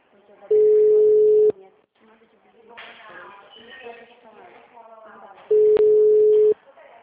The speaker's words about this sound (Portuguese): Eu tô ligando pra ela, tá?